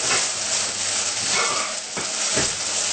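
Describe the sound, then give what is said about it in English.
A couple of tablespoons of black sesame seeds fry in a hot pan, giving a loud, continuous sizzling hiss that swells and eases slightly throughout. “now we're going to add our sesame, you know, like a couple of tablespoons. Either black or white.”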